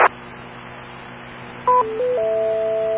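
Radio interference from a neighbour's laptop charger that was left plugged in: a short burst opens a low steady hiss and hum, then whistling tones appear and step between pitches, holding on a steady pair of tones.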